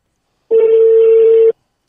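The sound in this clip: Telephone tone as a number is dialled during a live show call: a single steady, mid-pitched electronic beep lasting about a second, clean and alone against silence.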